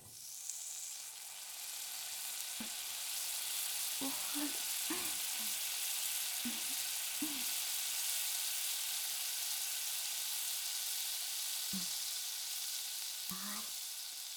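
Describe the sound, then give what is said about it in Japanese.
Garlic-flavoured food fries in a pan with a quiet, steady hiss, broken by a few soft knocks and scrapes of a utensil moving the food. “今焼くのはガーリック風味です。つまりニンニクを使いまーす。”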